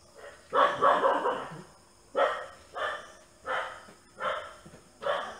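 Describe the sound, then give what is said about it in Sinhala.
A dog barks several times in an uneven series of sharp, fairly faint barks separated by short pauses, with no other sound. “ඒ බල්ලන්ට තමන්ගේ නිවන පාවලා දෙන්න එපා. ඌ එහෙ බුරපු දෙන්.”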